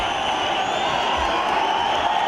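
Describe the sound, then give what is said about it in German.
A cheering crowd greets Ethiopian Prime Minister Abiy Ahmed in the Eritrean capital Asmara: a continuous, even roar of many voices with sustained shrill high cries running through it, and no breaks. “Eine jubelnde Menge begrüßt Abiy in der Hauptstadt Asmara.”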